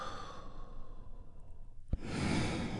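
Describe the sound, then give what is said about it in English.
A group takes a deep breath in together and then lets it out during a guided relaxation exercise. Soft, steady breathy noise swells into a louder, fuller rush of exhaled air. “We do that by taking a big, deep, healing breath all together. Here we go. And release.”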